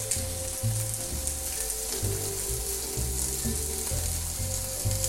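Food sizzles in a hot pan after being laid down in batches and left to brown without stirring. A steady, dense crackle and hiss runs through the whole stretch with no talk.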